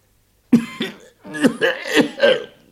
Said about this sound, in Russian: Сердито кашлянула ракета.